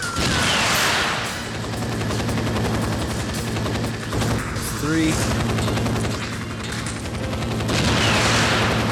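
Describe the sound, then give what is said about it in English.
Gunfire rings out in many rapid, loud repeated shots that run almost continuously, layered over a steady low droning hum throughout. “Alright, let's just keep shooting.”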